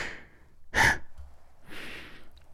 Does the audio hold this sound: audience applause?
no